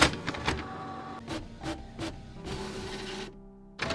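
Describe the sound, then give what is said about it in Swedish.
A printer prints out a page: a run of short mechanical whirring strokes, then a longer continuous feed, a brief pause and a final burst, with no voices. “Kan inte du skriva ut dagens fakta till oss? Ja, visst, den kommer här.”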